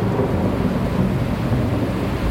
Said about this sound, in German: Schmetternde Donnerschläge lassen das Schiff erzittern